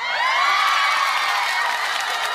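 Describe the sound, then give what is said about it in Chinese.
Audience cheering and whooping as a guest is introduced on stage, a loud, sustained burst of many voices that stays steady throughout. “掌声在哪里 ？”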